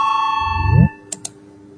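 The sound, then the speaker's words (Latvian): An electronic bell rings in a parliament chamber to call deputies to a vote: a steady, sustained ringing tone that cuts off abruptly, followed by two short, sharp clicks. “Lūdzu zvanu, balsosim”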